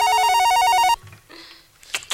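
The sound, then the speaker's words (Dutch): A telephone rings in a doctor's room with a bright, warbling electronic tone for about a second, then cuts off. Faint clicks and a short rustle follow. “dan neemt mama even de telefoon op”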